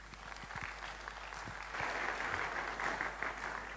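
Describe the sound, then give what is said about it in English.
Steady applause from a conference audience welcoming a speaker, dense and continuous clapping that swells a little after the first two seconds and holds to the end. “So ladies and gentlemen, put your hand together for Don Christie.”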